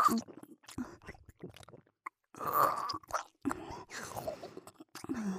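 Someone chews a steak with wet, close mouth sounds: soft squishes and smacks in an irregular rhythm, broken by short pauses. A breathy, whisper-like quality runs through it.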